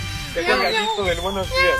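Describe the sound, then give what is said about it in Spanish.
A human voice imitates a cat's meow with a few wavering, nasal vocal glides that bend up and down in pitch over steady background noise. “Con maullido sale más fácil.”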